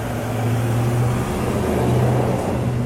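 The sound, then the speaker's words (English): A truck passes outside with a low, steady engine drone and rumble. The sound holds at an even level and swells slightly near the end. “Pardon the noise of the truck there.”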